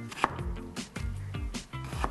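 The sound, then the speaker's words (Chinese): A knife cuts through winter melon skin and seeds in 2 cm pieces, giving several quiet, fairly regular chops on a board. “再把旁边的皮 对 一刀一刀切开，然后再把中间的籽也是切开”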